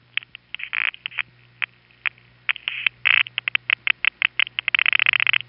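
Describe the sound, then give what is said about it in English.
Revertive panel pulsing between the Midtown Tandem and Fairview Avenue panel telephone offices: rapid, irregular ticks and clicks over a low steady hum, quickening at the end into a fast, regular train of clicks. “That's what we mean by panel pulsing. Most of the noises you're hearing there are actually coming backwards toward us from Brooklyn.”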